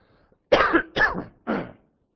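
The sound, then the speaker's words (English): Throat clearing and coughing during a spoken sermon: three short, rough bursts in quick succession, each lasting a fraction of a second, heard alone against silence. “Excuse me, I have a frog in my throat.”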